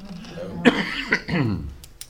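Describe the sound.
A short bout of coughing from a tickle in the throat: two sharp, brief coughs and a rougher throat-clearing stretch, fairly loud and without speech.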